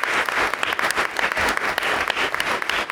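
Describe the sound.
Applause from an audience at a community event honoring guests and panelists: brisk, dense clapping with sharp individual claps popping out of the steady wash, fairly loud and continuous throughout.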